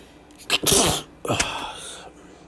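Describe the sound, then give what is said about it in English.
A loud, sharp human sneeze bursts out, followed a moment later by a shorter, weaker second burst, then quiet breathing noise. “I gotta sneeze.”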